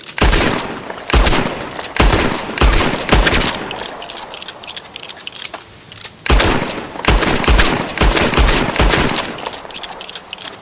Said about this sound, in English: Shoot his fingers. There goes his hand. Shoot his other hand.